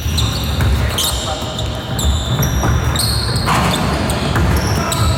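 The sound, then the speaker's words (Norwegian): Basketball shoes squeak sharply on the court during a game in a sports arena, several brief high chirps cutting through a loud, dense wash of crowd noise and thudding ball bounces. “Basketbane. Det jo lyden av en idrettsarena. Ja, det basket spesifikt, og det jo den der skvikelyden jeg utsetter. Ja. Som en ganske karakteristisk lyd.”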